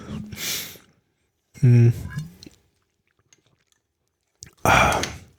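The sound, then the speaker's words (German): Someone drinking: three separate bursts of breathy, gulping mouth sounds, one with a throaty voiced swallow, separated by stretches of near silence. “Musst du noch mal was trinken? Hat man gehört.”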